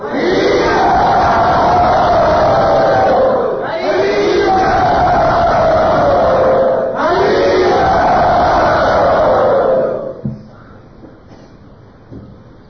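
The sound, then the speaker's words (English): A crowd chants "Hari Bol" loudly and enthusiastically in welcome: three long, swelling group shouts follow one another, then the voices die away quickly into near quiet. “So let us welcome Shravananda Prabhu by very loudly and enthusiastically chanting Hari Bol.”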